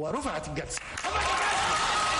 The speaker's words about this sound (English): Supporters of former Egyptian President Hosni Mubarak applauded after Judge Mohamed Rashidi declared him innocent.